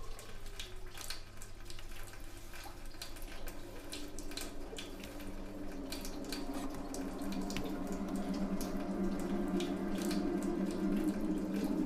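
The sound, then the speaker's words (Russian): Tap water runs steadily into a sink as a man washes his face, a faint, continuous splashing flow that grows slightly fuller partway through. “Он умывается и смотрит на себя в зеркало.”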